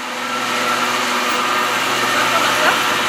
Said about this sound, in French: Et puis une fois qu'il a fini de germer, en fait, il va passer au four qui est là derrière. C'est ça qu'on entend.